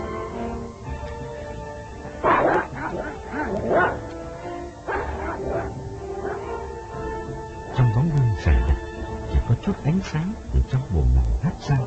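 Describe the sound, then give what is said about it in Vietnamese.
A neighbour's dog barks at someone approaching, with many sharp barks, yips and whimpers in irregular bursts that grow louder and denser toward the end. “Con chó nhà hàng xóm thì cứ lao tới phía ông mà sủa”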